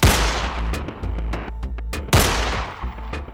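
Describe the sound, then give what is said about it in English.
Two 9mm pistol shots fired into the air, each a loud, sharp crack with a ringing tail, the second coming about two seconds after the first. “she pulls her 9mm from the holster in the small of her back and she goes, well, on your marks. And then fires two shots over her head into the air.”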